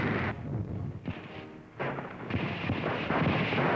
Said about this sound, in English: And now they blast them from the Marathon Line. Tanks and artillery concentrate on the Gabas Gap.